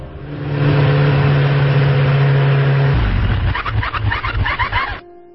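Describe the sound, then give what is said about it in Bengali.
Motorbike engine sputtering and coughing on a forest road: a loud, steady hum drops abruptly in pitch midway into an uneven, pulsing stutter before cutting out. “হঠাৎ করেই আমার bike যক্ষা রোগীর মতো কাশতে শুরু করল।”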